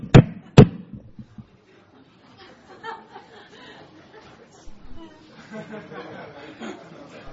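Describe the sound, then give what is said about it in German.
Two hard, sharp knocks on a door, the way soldiers knock, come in quick succession at the start. Several people then talk and murmur quietly. “So klopfen nur Soldaten an.”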